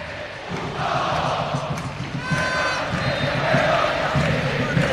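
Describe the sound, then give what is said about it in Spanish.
Crowd noise from Olimpia football supporters at a Paraguayan match their team is winning, a loud, continuous roar of many voices with shouting that holds steady throughout. “Este es el público de Olimpia.”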